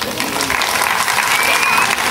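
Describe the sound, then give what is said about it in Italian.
Audience applause for a singing father and his family, a dense, loud, steady clatter of clapping that fills the whole moment without any break. “Un applauso.”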